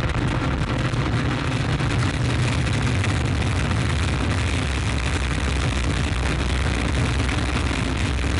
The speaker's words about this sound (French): top, allumage Vulcain. Allumage confirmé. Top, allumage UAP, décollage.